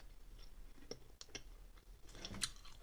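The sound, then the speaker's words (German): Chewing gum: faint, moist smacks and small clicks at an uneven pace, with no talking. “Das erstmal nehme ich das Kaugummi. Schmeckt lecker.”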